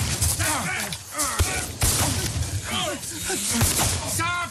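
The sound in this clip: Gunfire in a firefight: several sharp, cracking shots burst out at irregular intervals, mixed with shouting voices throughout.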